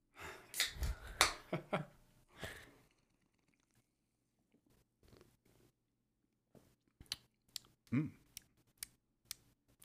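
Opening a Kolsch beer: a short cluster of crisp clicks and rustling bursts, then a quiet pause, then a series of sparse, sharp little clicks and ticks, with no voices.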